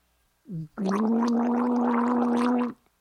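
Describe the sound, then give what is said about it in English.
A person gargles water: a short gurgling onset, then about two seconds of steady, buzzing, voiced bubbling that stops abruptly. “That's to gargle. That's just an extra little bonus for listening to this episode. You get to hear me gargle.”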